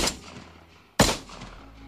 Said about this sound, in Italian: Fucile e pistole Taurus, il sapore della rivincita.